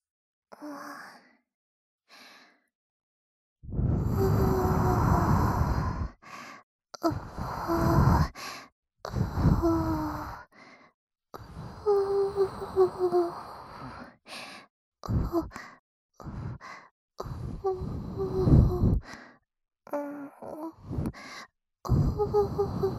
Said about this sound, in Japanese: どうですか？私の吐息、ちょっとくすぐったいかもしれませんけど